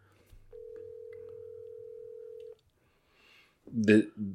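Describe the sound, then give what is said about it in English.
A phone call rings out as one steady electronic tone that lasts about two seconds over a low hum. A short quiet follows, then a voice speaks briefly. “Danny Jones ringing, not answering me”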